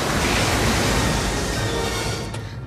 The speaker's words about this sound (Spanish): ¡Agua! ¡Agua! La tromba de agua llega arrasando.